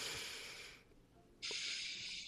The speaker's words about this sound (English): if you're stressed out, take five hands, do five breaths. So I'm gonna do the first one.